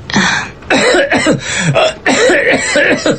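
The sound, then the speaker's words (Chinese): A man coughs in a run of several harsh, forceful bursts, close together and loud, with no talking in between. “陈父用咳嗽声阻止了陈母说出实情，陈母便改了口”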